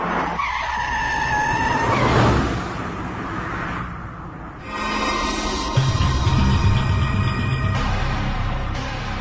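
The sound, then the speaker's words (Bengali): A car skidding to a sudden stop as someone steps in front of it: a loud, wavering tire squeal, followed by continuing rough engine and road noise. “রকির গাড়ির ঠিক সামনে চলে এসেছে কেউ একজন, আরেকটু হলে চাপা পড়ত এমন অবস্থা।”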